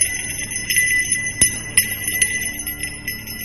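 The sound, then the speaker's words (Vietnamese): A bell jingles and rings clearly and loudly, with repeated bright metallic strikes over a sustained shimmering tone. It plays alone, with no voices. “đột nhiên một tiếng chuông leng ca leng keng vang lên. Tiếng chuông vang lên rõ lắm, to lắm.”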